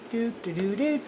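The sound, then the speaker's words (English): A voice imitates the Nickelodeon jingle, singing three short, wordless melodic phrases. The last phrase rises in pitch. “That's the sound of Nickelodeon.”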